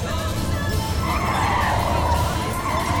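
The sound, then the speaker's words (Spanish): A car pulls away and accelerates, a loud, steady engine roar with a tone that climbs through the middle of the sound. “te sientas sobre el cuerpo del doctor y arrancas. Aceleras.”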